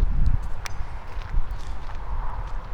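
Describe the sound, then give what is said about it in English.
Footsteps crossing a land bridge near a billabong, a few soft, dull treads over steady outdoor noise. “Alright, walking out of the back 40 here over the land bridge.”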